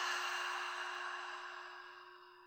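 A long, deep exhale through an open mouth during a guided breathing exercise: a soft, breathy rush of air that fades steadily over a few seconds above a steady low hum.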